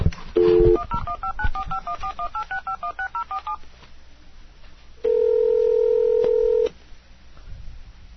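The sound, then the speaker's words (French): A phone dials a number: a short dial tone, then many quick touch-tone beeps in a steady run, then after a pause a long, steady ringing tone over faint background noise. “Donc, maintenant, on va appeler Empereur Max. Je vais vérifier si le numéro est correct. Et c'est parti.”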